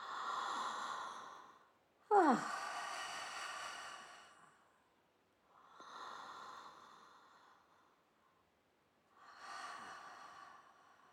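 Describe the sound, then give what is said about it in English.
Deep breaths drawn in and out in a steady cycle during a guided breathing exercise: four long, airy breaths with no other sound, separated only by short gaps. “no pause between the inhale and the exhale, and the exhale and the inhale”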